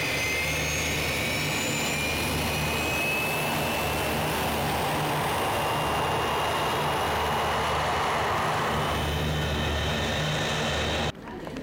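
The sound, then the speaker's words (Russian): Jet aircraft engines roar steadily at an airport, a loud continuous whine with high tonal lines over broad rumble, cutting off abruptly near the end. “Аэропорт.”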